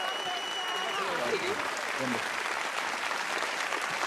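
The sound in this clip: Audience clapping at an award ceremony after a second prize is announced, a soft, even patter of many hands throughout, with a voice briefly heard over it early on.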